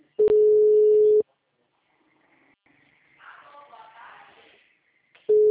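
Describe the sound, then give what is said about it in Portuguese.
Telephone busy signal: a long, steady, mid-pitched beep, then another begins at the end. Faint murmuring voices fill the quiet gap between the tones. “O telefone encontra-se ocupado. Por favor, tente mais tarde. O número está ocupado.”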